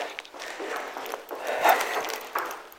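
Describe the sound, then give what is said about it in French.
Footsteps going down a flight of stairs, a series of light, irregular taps and scuffs, each step a short sharp knock, with no voices. “Allez, On descend des escaliers là.”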